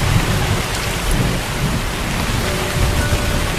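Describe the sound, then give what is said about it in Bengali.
Heavy rain pours down in a windy storm, the drops growing heavier: a loud, dense, steady hiss throughout with a deep rumbling undertone and no voices. “বাসা কিন্তু তখনও বেশ খানিকটা দূরে, কিন্তু বৃষ্টিকে বোধহয় ফাঁকি দিতে পারব না। জলের ফোঁটা বেশ বেড়ে উঠল।”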